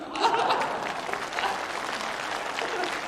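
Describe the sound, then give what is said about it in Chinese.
Audience applause from a live stage comedy performance, a dense, steady patter of clapping that swells at the start and holds at an even, fairly loud level throughout with a little laughter mixed in. “因为女同胞的掌声比较持久。”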